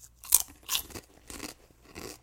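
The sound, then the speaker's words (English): Crunching of kettle-cooked hot jalapeno potato chips being chewed: a few sharp, crisp bursts in an uneven rhythm, with no talk over them. “If you do not like crunching, turn away from this audio right now or skip it.”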